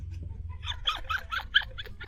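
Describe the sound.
A small dog whines in a few short, high-pitched yelps and whimpers, faint and clustered together over a low background rumble.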